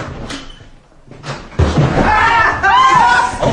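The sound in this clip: A door bolt is drawn shut with a few sharp knocks and a heavier thud, followed by voices talking.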